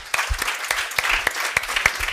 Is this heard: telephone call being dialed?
no